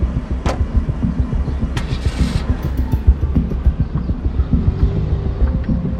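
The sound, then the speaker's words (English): A silver sedan's engine starts and runs with a low, pulsing rumble at a steady, fairly loud level. A few sharp clicks cut in over the drone. “Passes Tom's car and gets in a silver sedan.”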